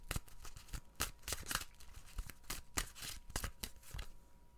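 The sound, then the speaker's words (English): Tarot cards being shuffled: many quick, crisp riffling and flicking bursts in an irregular rhythm, fairly quiet and without talk. “Let's pull a card for the week and see what's going on.”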